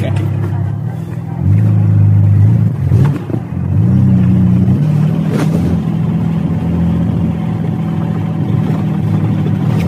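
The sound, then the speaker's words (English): A replica 1932 Ford Model B roadster, assembled from assorted parts, races up a steep test hill. Its engine roars loudly, revs climbing and dropping a couple of times before settling into a sustained throaty drone. “It's a replica of a 1932 Model B Ford Roadster. but that's about as far as it gets because it's made out of all sorts of bits and pieces that we've assembled.”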